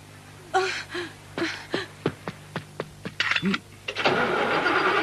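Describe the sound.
A truck engine cranks and starts with a few short sputtering bursts and clanks, then settles into a steady, louder running rumble for the final second.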